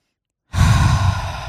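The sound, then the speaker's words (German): A single deep breath is drawn, breathy and full, heard alone after a short silence. It starts suddenly, holds steady for about a second and then eases slightly. “Ich halte inne. Einen tiefen Atemzug dazu.”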